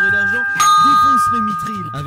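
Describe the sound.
A doorbell chime sounds as a steady ringing tone that carries under talking throughout.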